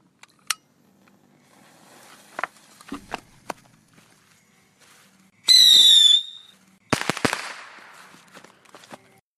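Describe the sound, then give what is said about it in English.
A bottle rocket firework is lit and launched: a shrill, whistling hiss lasting under a second, then a sharp bang with a crackling tail. A few faint clicks and taps come before it. “hold on 1 second. Let me light off another bottle rocket off over here.”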